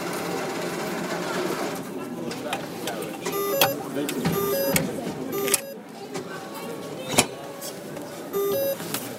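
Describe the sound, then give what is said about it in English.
Cash machine tritone alert reminding the user to take their cash: short two-note beeps repeat several times over a whirring machine and background noise. “Sometimes known as the devil's interval, the tritone is often used to remind us that we have left cash in the cash machine.”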